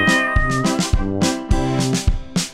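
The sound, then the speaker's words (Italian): A cat meowing in a children's animal song: a few bright, clear tonal cries at a steady pitch, repeated with sharp onsets and short gaps, with no talking. “arriva il gatto, arriva il gatto”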